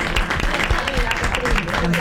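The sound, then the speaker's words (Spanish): Audience applause during the grand final of a contest with three suitcases, a continuous rustling patter of clapping that runs steadily beneath voices talking over it. “el aplauso para Bonazzi, chicos”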